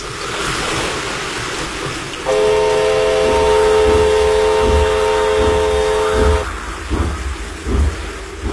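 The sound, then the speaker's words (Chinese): A train slowly approaches and runs onto a flooded track bed in the rain: a constant rushing, rain-like hiss with low rumbling knocks, and a steady sustained whistle tone for about four seconds in the middle. “火车慢慢地驶了过来，驶进了漫着水的路基。”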